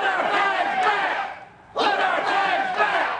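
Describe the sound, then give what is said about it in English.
A large crowd roars and shouts at a Confederate heritage rally at the state capitol in Montgomery, Alabama; the dense, continuous noise dips into a brief lull midway, then swells back to full volume. “a crowd gathered at a Confederate heritage rally at the state capitol in Montgomery.”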